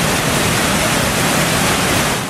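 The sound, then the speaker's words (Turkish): Steady rushing of a creek flowing through a canyon, a loud, dense and unbroken watery roar that holds the same level throughout with no voices. “2 kilometre akan deresi doğal güzelliğiyle burası da Mış Kızılağaç Kanyonu.”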